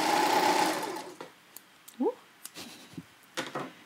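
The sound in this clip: A sewing machine stitching in a fast, dense whirring run of about a second that fades out, followed by a few scattered soft clicks and handling noises.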